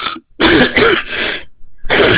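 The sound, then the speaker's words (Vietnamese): Coughing and throat clearing from a hoarse speaker with a cough: a few rough, harsh bursts separated by brief pauses. “mấy hôm nay chúng tôi bị ho cho nên hơi bị khan tiếng chút”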